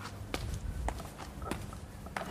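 Footsteps climbing a stone staircase in an old town, a few soft, irregular steps, faint against a steady background hiss and low hum, with no talk.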